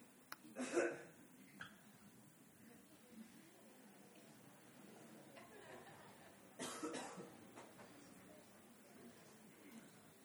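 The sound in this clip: Faint coughing as a speaker tries to clear their throat, two rough bursts several seconds apart, with low murmuring voices throughout.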